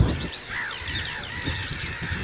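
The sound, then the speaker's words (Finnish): A flock of barnacle geese flies over a forest, giving many overlapping, fairly faint honking calls in a continuous chatter over a low background rumble. “Hanhiletka. Valkoposkihanhilta näyttää tästä nopeasti katsottuna.”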